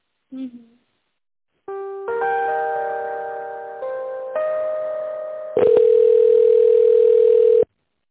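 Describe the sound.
A telephone transfer tone plays while a call is on hold. Steady electronic tones change pitch in a few stepped segments, and the final, loudest tone is held for about two seconds before cutting off abruptly.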